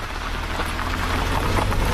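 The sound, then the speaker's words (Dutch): Heavy rain turning into a cloudburst, heard as a car drives onto a prison grounds: a dense, loud, unbroken hiss of pouring rain with a low rumble beneath and no talk. “Als we de auto het gevangenisterrein oprijden, slaat de regenbui om in een wolkbreuk.”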